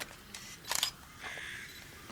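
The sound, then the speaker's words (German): A camera taking photos: a quick, faint cluster of sharp shutter clicks, then a softer mechanical noise. “Ich halte den Zustand mal fest und mache ein paar Fotos, okay?”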